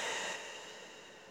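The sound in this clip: A single deep exhale during a guided grounding breathing exercise: a soft, breathy rush that starts strongest and slowly fades, faint and with no talk.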